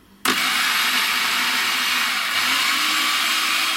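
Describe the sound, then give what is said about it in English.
A food processor whirs as it mixes cocoa powder and desiccated coconut, switching on abruptly and running with a steady, high motor whine. “1.5 tablespoons of cocoa powder. You can use raw cacao, and 1 cup of desiccated coconut. Just process until it's mixed together well.”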